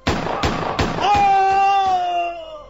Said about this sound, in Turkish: Öldürdüm. Öldürdüm onu. Ama o da beni vurdu.